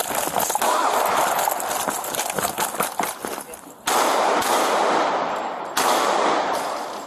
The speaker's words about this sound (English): Tenderloin officers located a potential suspect who matched the broadcasted description on the 100 block of Willow Alley and attempted to detain him when an officer-involved shooting occurred.